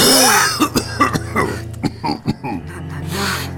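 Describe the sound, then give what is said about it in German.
Harsh coughing breaks out in a rapid fit of several sharp, throaty bursts, loud at first and continuing in uneven spurts. “So ein Husten.”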